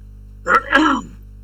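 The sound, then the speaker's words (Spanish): Two quick, rough coughs in a bad coughing fit, a short harsh burst followed by a slightly longer one, then quiet. “perdón, me atacó una tos muy mala.”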